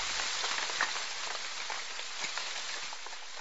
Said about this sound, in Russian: Начался дождь, и вскоре он перешел в настоящий ливень.